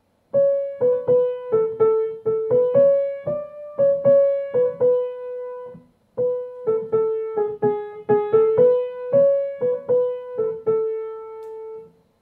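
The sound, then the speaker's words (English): Melodic Kurdish music: a lively single line of many quick, plucked-sounding notes moving up and down. A short break near the middle splits the tune into two phrases, and no voices accompany it. “in Kurdish music, we would hear something much more melodic. So we think about it much more vertically instead of horizontally. So it would sound something like this.”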